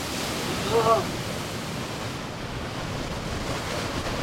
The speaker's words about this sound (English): It's this giant waterfall that reminds me of Yosemite Falls in the valley. It's raging.